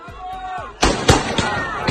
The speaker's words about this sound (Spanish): cuando la masa avanza comienzan a disparar en principio al aire. Pues este sonido, esta escena, ya digo, refleja bien lo que está ocurriendo.